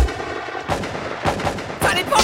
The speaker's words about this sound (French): la main sur le gun, elle a tiré